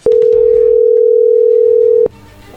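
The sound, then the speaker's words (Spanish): Telephone dial tone while a call is being placed: a loud, steady single-pitch hum holding for about two seconds, then cutting off abruptly, leaving only a faint background. “pues vamos a llamarle”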